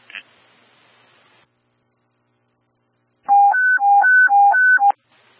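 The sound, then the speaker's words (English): An emergency-retreat alert tone from a dispatch radio rapidly alternates between a low and a high pitch for about a second and a half. It is loud and clean, coming after a faint hiss and a stretch of silence. “Alert tone 2, emergency retreat.”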